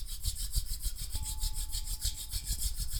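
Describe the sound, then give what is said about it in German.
Palms rubbing together fast during a guided relaxation meditation: a steady, rhythmic swishing of many quick strokes that runs the whole time, with no talking. “Und dann kannst du gerne noch einmal die Hände reiben, das heißt, bring die Handflächen einmal zueinander und reib die Hände gegeneinander.”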